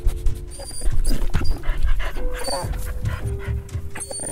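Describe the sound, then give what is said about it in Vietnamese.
Quick, rhythmic panting from a military detection dog used to sniff out tunnels: a run of short, breathy bursts in rapid succession over a low background rumble. “Địch sử dụng chó nghiệp vụ để phát hiện địa đạo. Chó đánh hơi được mùi người bốc lên từ các lỗ thông hơi và miệng hầm nên dễ dàng lần ra vị trí địa đạo.”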